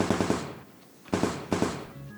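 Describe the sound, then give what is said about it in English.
Gunfire sound effect in a tabletop role-play scene: three bursts of rapid, sharp automatic shots, the first longer and the next two short, with brief quiet gaps between them. “Bill, you feel the bullets bouncing off of your shield as she's squeezing off some shots.”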